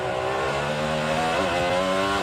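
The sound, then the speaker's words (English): An IndyCar racing around the Detroit street circuit gives a loud, high engine whine with stacked harmonics, its pitch dipping and climbing again midway through a steady, unbroken run. “That's driver Kyle Kirkwood ripping his IndyCar around Detroit back in May.”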